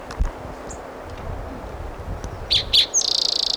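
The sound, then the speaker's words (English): A Virginia's warbler sings a few high chirps, then a rapid, even trill of quick repeated notes. Soft rustling and wind noise come before the song. “That was a Virginia Warbler singing.”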